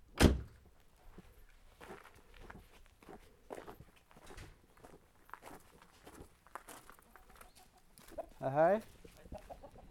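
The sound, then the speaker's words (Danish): Hens clucking on a road: scattered soft clucks and shuffling sounds, then a louder, drawn-out cackle near the end. “der ligger simpelthen øh, øh, høns på vejen. Det må jeg nok hellere lade være med at køre ned”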